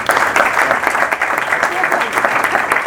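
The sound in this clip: Audience applause at a seminar, dense steady clapping at moderate loudness that fills the whole stretch without a break.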